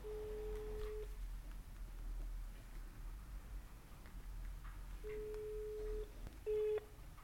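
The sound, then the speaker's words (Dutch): Faint ringback tone on a phone while a call is placed: two long, steady pulses several seconds apart, followed by a brief beep, over a quiet hiss. “Maar zal ik er eens bellen? Zal ik het eens vragen?”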